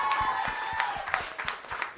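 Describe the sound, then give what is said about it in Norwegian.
Applause from a small group, with individual claps standing out in an uneven rhythm over a faint tonal background. The level rises and dips briefly throughout. “Det er veldig bra, en applaus der.”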